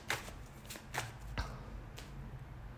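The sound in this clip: Cards being shuffled for a card reading: a few soft, quick riffling bursts, faint and heard alone without talk.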